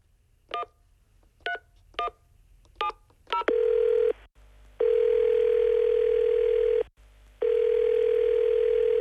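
A telephone number is dialed on a keypad as five short, separate beeps. A loud, steady line tone then follows in three long bursts with brief gaps between them.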